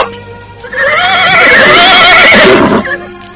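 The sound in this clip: A horse neighs loudly, a long wavering whinny of about two seconds that rises out of quieter background noise and then trails off.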